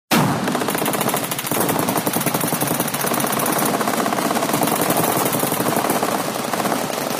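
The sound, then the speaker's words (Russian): Loud, rapid automatic gunfire in a street shootout between attackers and police, starting abruptly and continuing as a dense, unbroken rattle for the whole stretch. “Грохот выстрелов рвал перепонки.”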